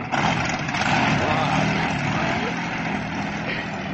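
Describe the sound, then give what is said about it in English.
A cold motor strains in a loud, rough, steady drone. The sound holds at an even level throughout with no pauses. “There's nothing wrong with the motor. It's just cold, that's all.”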